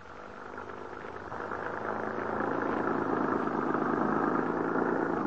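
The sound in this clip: A car drives with a smooth, steady engine drone that swells during the first couple of seconds and then holds at a constant, fairly loud level with no other sounds.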